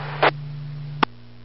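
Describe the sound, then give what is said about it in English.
A loud kitchen fan hums with a steady, low, even drone, broken by two brief clicks. “Fan in the kitchen. I came inside. I got this loud fan.”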